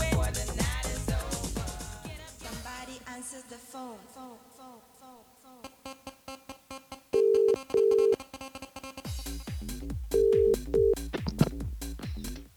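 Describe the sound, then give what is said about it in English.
A telephone call being dialed over pulsing background music, with steady electronic beep tones in two short pairs ringing out clearly above the beat. “should we make a phone call?”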